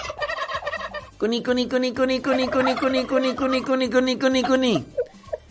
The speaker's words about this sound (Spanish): Los guajolotes.